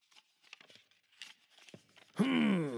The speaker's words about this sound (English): Now, if Jim is agreeable, we will open the packet.